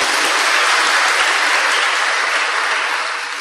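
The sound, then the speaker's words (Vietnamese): A round of applause from an audience at a Buddhist dharma talk, with dense, even clapping sustained throughout and easing off slightly toward the end. “Mời bạn ở dưới cho một tràng pháo tay.”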